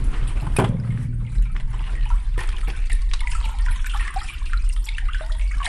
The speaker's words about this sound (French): Ça, c'est l'écoulement de l'eau dans le tube qui sert à irriguer les terres de Faja.